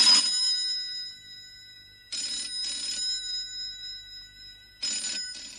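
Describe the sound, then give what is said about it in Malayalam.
A telephone rings in bright, metallic trilling bursts separated by pauses: one ring, then a double ring, then another ring begins, all fairly faint and with no voices. “Mummy എന്താ phone എടുക്കാത്തെ? Daddy എടുക്കുന്നില്ലേ? ആരെടുക്കുന്നില്ലെങ്കിൽ ഞാൻ എടുക്കാം.”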